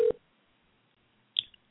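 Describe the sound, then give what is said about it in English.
Touch-tone dialing on a telephone while calling someone: two short electronic beeps separated by a pause, the second shriller and trailed by a faint extra blip. “All right, we're calling Don. Let's see if he answers the phone”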